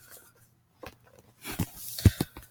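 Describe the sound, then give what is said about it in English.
Notes are written by hand with a pen on paper, heard as a few faint, short scratching strokes after a near-silent pause. “Just writing down info I need for the next book.”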